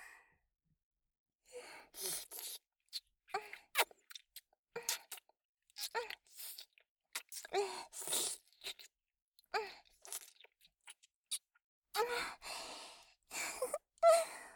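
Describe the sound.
Soft, wet licking sounds on skin, many irregular quiet smacks and slurps separated by short pauses, mixed with breathy moaning.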